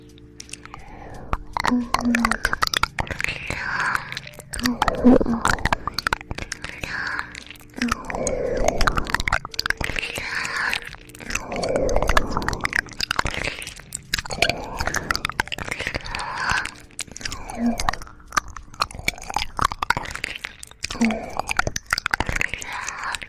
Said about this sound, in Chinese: 妈妈帮你舔干净吧，好吗？